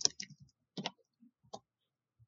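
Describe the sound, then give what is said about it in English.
Soft computer keyboard clicks as a dice roll is typed in during a tabletop role-playing game, a few faint, sparse taps with quiet pauses between. “So go ahead and roll 3d6. Just gonna type it.”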